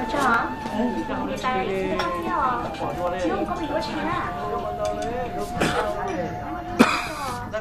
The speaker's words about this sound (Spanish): Tose sangre en su mano.